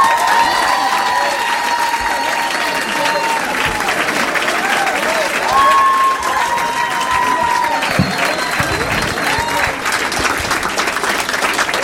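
Audience applause and cheering at a comedy show in Minneapolis, with sustained heavy clapping and a few high whoops rising over the crowd for the full length.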